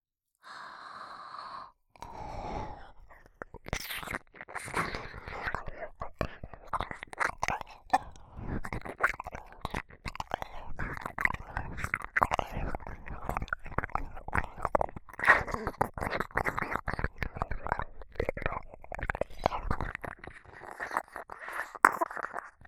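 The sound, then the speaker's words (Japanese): Close ASMR mouth sounds of nibbling and chewing on an ear: many wet clicks, smacks and soft crunchy bites in a dense, irregular stream after a brief breathy voiced sigh. “こちらのお耳もいただきますね。”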